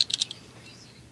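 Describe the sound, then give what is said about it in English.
Typing on a computer keyboard: a short burst of a few quick, light key clicks right at the start, then near silence for the rest. “Whoops, I had to type in the rest of it.”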